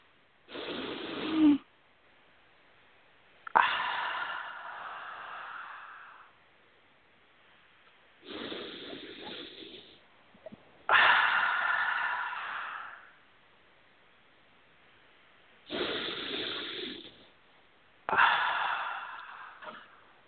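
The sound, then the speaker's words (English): Slow, deep human breathing in three full cycles, each a shorter inhale followed by a longer, drawn-out exhale, with quiet pauses between breaths. “Let's take a couple of nice deep breaths.”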